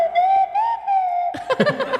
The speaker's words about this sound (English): Oh, on the whistle, no less.